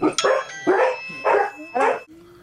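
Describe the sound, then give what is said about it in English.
A household dog barks four times in an even rhythm, each a full, mid-pitched bark, with short pauses between them and no talk. “What is that going on? I didn't do that. That's a dog.”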